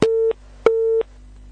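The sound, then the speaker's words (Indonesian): A busy tone sounds after a phone call disconnects: two identical steady mid-pitched beeps, each about a third of a second long, separated by a short silence. “mohon maaf Pak, terputus sambungan teleponnya dan kami belum mendapatkan secara utuh pertanyaan yang disampaikan.”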